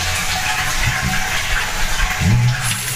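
Water runs in a steady rushing stream from a tap during rinsing, loud and continuous with no pauses, with a brief low gurgling swell near the end.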